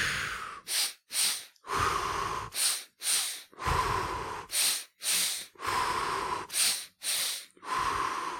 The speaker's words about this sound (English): We shift our breath to a double inhale and an exhale.